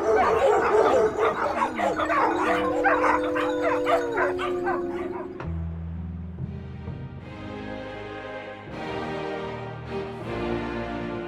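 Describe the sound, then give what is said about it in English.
A dog barks and yips over and over, with many sharp, high-pitched barks and whining, whimpering tones in a steady, agitated stream. “Shut up, dog! Shut up! Shut the hell up!”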